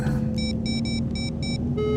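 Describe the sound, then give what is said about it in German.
A telephone ringing with an electronic ringtone, a rapid series of short, bright, high chirping bursts repeating over a constant low rumble, with no voices. “Hol mir Thomas ins Telefon.”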